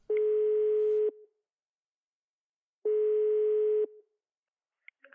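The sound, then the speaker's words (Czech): A ringback tone sounds while a phone call is being placed: two steady, one-second beeps at a single mid pitch separated by silence, followed by a couple of faint clicks. “Volám Vaškovi.”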